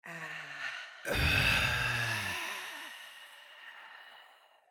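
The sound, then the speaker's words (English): A deep breath is drawn in through the nose by someone with allergies and breathing trouble. A brief voice comes first, then a sudden loud, airy rush of breath that slowly fades. “Okay, deep breath in.”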